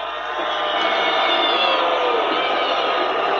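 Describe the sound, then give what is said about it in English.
A crowd booing Senator Lindsey Graham as he is welcomed on stage at an event, a dense, loud, sustained roar of many voices that holds steady throughout. “Those are all boos. Everybody. Thumbs down. Middle fingers. Boos.”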